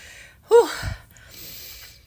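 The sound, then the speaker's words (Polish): A woman's sharp, voiced gasp as she catches her breath after running after a kitten: one loud inhale, then softer breathing in a quiet pause. “chwilę muszę poświęcić, żeby złapać oddech, bo właśnie biegłam za kociakiem”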